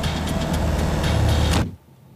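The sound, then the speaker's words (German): A car engine running with the door open as a getaway car waits, a loud, steady rumble that cuts off abruptly near the end, leaving quiet. “Laufender Motor, offene Tür. Sie werfen sich auf die Rückbank.”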